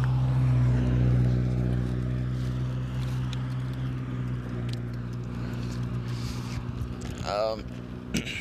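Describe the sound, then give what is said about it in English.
A mail truck drives by, its engine a steady low drone that holds loud throughout, with a brief higher sweeping sound near the end. “There's a mail truck driving behind me right now.”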